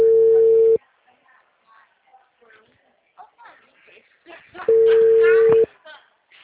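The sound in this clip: Telephone call tone: a steady, electronic beep sounds twice, each lasting under a second, with voices talking in the gap between the two tones.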